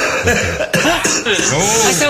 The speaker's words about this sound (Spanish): Un poquito de tos.